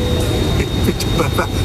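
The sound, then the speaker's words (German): An airplane taxiing on the runway gives off a loud, steady engine rumble and roar that stays constant throughout, with voices talking over it. “Wenig später setzte sich die Maschine erneut in Bewegung. Diesmal auf dem richtigen Rollfeld.”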